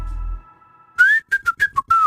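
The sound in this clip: A person whistles into a microphone: a brief low rumble first, then a series of clear high whistled notes. A sliding opening note is followed by four quick short notes and a longer wavering note.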